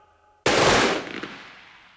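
A firing squad fires a single loud, sharp volley of gunfire that starts abruptly after a short quiet lead-in. A long rumbling tail then fades slowly, with no voices.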